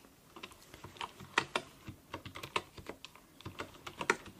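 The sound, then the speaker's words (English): Typing on a wooden keyboard: many quick, crisp keystrokes clatter in an irregular rhythm, fairly soft, with no voices. “just want to make sure I type in your information in my file correctly.”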